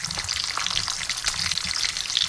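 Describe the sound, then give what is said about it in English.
Bacon sizzling in a pan, played as a name-that-sound quiz item: a continuous, fairly soft crackling hiss packed with tiny rapid pops throughout, alone with no voices. “Bacon. Sizzling bacon. Bacon is correct.”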